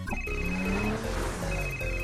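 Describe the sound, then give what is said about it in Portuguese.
A phone rings during an outgoing call, a steady electronic ring tone over a dense, continuous music backing, with no speech. “Vou ligar logo o Gregor e ver o que tá pegando.”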